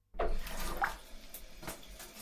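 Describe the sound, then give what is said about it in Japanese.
Shower water runs while someone is being rinsed, a soft, steady hiss with a few brief splashy surges, faint and alone. “どうかな、シャワーの湯加減は。大丈夫そう？”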